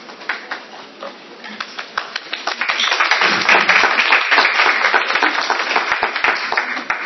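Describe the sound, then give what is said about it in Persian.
An audience at a talk claps, starting with a few scattered, separate claps that swell into steady, dense applause that lasts to the end. “یه درخواست میکنم دوستان دست نزنیم، چون مسابقه که نمیدیم داریم گپ میزنیم همه با هم دیگه، دست نزنیم.”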